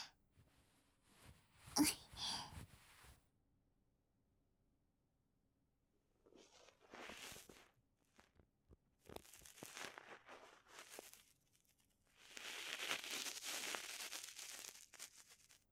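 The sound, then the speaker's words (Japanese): Ear cleaning to remove a single fragment from the right ear, heard as faint crackly scraping and crinkling in several bursts separated by quiet gaps, with a longer rustling stretch at the end. “かけら、右耳に一個だけだから、サクサクサクっと取っちゃうっちゃね。”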